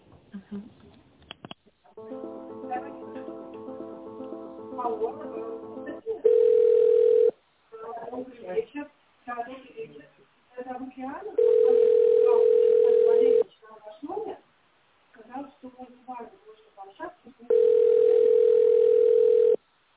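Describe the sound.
Telephone line ringing during a call transfer: three steady two-second ring tones spaced evenly apart, with people talking in the gaps between rings and a stretch of tonal sound before the first ring.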